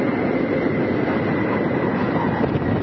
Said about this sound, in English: Nose gear touchdown.